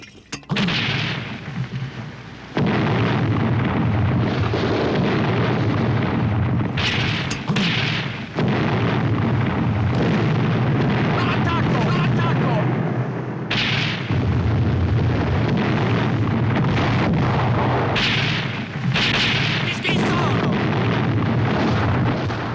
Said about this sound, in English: Mortar attacks from both the Italian and German sides.